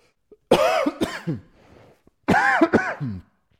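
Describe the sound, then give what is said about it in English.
A man coughs and clears his throat after spit went down the wrong way. Two harsh, loud bursts of coughing are separated by a short pause, each made of a few rapid coughs. “Well, some spit went down the wrong tube there.”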